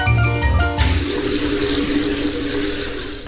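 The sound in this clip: Water running and splashing from a well, poured out while someone washes with soap: a steady, loud rushing hiss that carries on unbroken for about three seconds.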